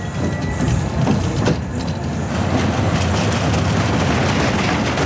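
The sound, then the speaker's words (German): A fairground ride rushes over rails through tight curves, giving a loud, continuous rumbling rattle with steady clattering that hardly changes across the whole stretch. “über enge Kurven und Schienen saust das Fahrgeschäft”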